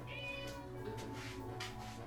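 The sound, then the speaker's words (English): A cat meows faintly, giving a few soft, high-pitched mews over a low, steady background hum. “what are you doing to my cat? Right here, the cat's right here.”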